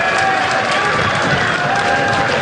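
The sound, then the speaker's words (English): Cricket crowd cheering as Travis Head comes on to bowl for Australia: a dense, loud, steady roar of many voices that holds without a break throughout. “It's time for some Travis Head magic. Crowd love it.”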